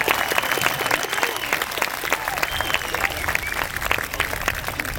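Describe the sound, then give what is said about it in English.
Audience applause welcomes a banjo player from Virginia onto the stage: dense, steady clapping from many hands, loud and continuous throughout. “We're glad, and I want you to meet him and give him a nice big welcome. He comes from the state of Virginia. This is Butch Robbins over here.”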